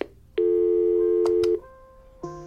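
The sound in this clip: Telephone tones as voicemail playback starts: a long, loud, steady electronic beep lasting about a second, followed after a pause by a second, quieter tone.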